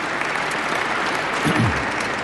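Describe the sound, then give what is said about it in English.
An audience gives applause at a commemorative birthday celebration, dense steady clapping that holds at an even level for the whole stretch. “Give yourselves a big round of applause for coming out today and celebrating, and thank you.”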